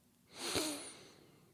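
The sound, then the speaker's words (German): A short, audible breath drawn in during a box-breathing exercise makes a brief breathy hiss with a slight whistling edge. It swells and fades within under a second against a quiet background, with no talk. “Wie geht denn diese Boxatmung? Also, 484 erklärt es schon. Atme ein und zähle bis 4.”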